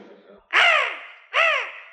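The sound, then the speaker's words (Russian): A parrot squawking: two loud, harsh, raspy calls, each drawn out and dropping in pitch at the end, separated by a short pause. “Принести попугая! Я уже послал за ним, он здесь. Говори, ученая птица.”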